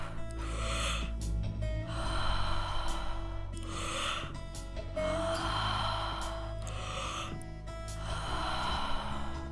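Deep breathing in and out during a guided workout: several loud, airy breaths rise and fall in a steady, repeating rhythm over steady background music.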